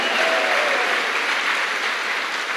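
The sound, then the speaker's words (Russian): Dense, continuous applause from a church audience during a conference service, loud and steady from start to finish. “Давайте Господу большие аплодисменты.”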